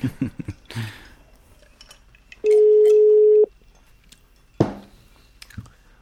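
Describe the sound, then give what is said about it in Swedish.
A telephone call being placed produces a single steady, mid-pitched ringback tone lasting about a second, surrounded by scattered clicks and light handling noises before and after. “Ja, vi kan ringa och snacka lite här hur det står till med honom.”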